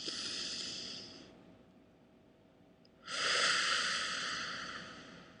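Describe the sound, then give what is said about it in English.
A deep breath drawn in and let out: two long, breathy rushes of air separated by a short pause, the second louder and fuller, with no voices. “Take a deep breath.”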